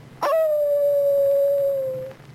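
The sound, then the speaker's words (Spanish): A sea lion howls in one long, steady, sustained cry that holds an even pitch for about two seconds before cutting off. “oyeron por primera vez aullar a un lobo marino”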